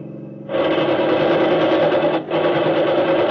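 Rapid, continuous machine gun fire from a car driving through a road blockade. The loud mechanical rattle starts abruptly, cuts out briefly, then resumes as a second sustained burst, with no voices.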